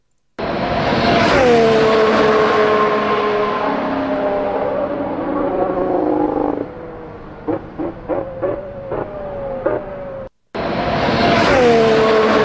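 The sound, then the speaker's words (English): A Honda Formula 1 car engine heard trackside: a loud, high-pitched whine that falls in pitch, then a quick run of several sharp throttle blips as it downshifts, followed by the shrill engine roaring again after a brief break. “The Honda downshifts always sound very, very cool, very good, very aggressive as well.”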